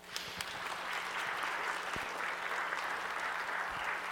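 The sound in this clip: A church audience applauds to welcome a guest preaching pastor, a dense and steady clapping that holds evenly throughout, with a few sharper individual claps standing out.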